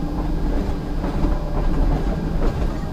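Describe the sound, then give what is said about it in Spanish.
A train comes to a stop with a continuous heavy rumble and a rhythmic rail clatter running through it at a steady, fairly loud level. “de cuando se detuvo el tren.”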